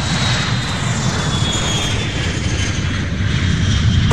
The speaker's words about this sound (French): 4, 3, 2, 1. Décollage.